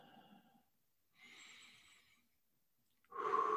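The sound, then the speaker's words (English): A deep breath taken during a quiet meditative reflection: a soft, airy rush of breath lasting about a second, with no talk over it and a louder burst of sound near the end. “And so in this place, I take a deep breath.”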